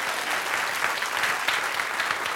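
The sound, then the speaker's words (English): A church audience claps their hands in lively, sustained applause, the clapping dense and steady with small surges throughout. “All right, let's give the Lord a hand clap one more time.”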